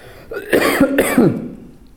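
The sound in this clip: A person with a scratchy throat clears it in a couple of rough, rasping bursts, gruff and throaty, then quiet.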